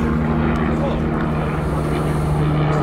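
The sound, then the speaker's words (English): A helicopter flies over a motor racing circuit during a stop in qualifying, a loud, steady engine drone with a constant low hum that runs throughout under talk. “It's the sound of a helicopter instead.”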